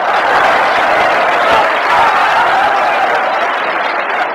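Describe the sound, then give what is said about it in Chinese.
Audience applause at a show with a boxing theme: dense, continuous clapping that stays loud and even, then eases slightly near the end. “从观众的掌声就可以看得出来对你寄予极大的希望”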